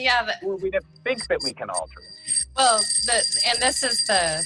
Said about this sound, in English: I hate that bell. Give me this big bell. That's a ding.